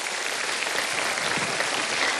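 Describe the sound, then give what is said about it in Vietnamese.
Steady applause for a mother and her son at an event: dense, continuous clapping, even in level and unbroken from start to finish. “Một tràng pháo tay nữa dành cho hai mẹ con cô Kim Sơn ạ.”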